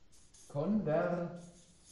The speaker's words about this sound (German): Schreib das mal so hin.